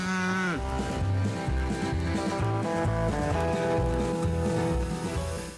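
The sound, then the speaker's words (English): Cows mooing: long, loud, harmonic-rich moos that follow one another and overlap, keeping the sound going throughout. “it's time to let out the cows, Phil.”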